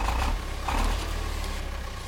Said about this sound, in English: Before we get going, I better fire up the song generator. Let's hope it doesn't overheat.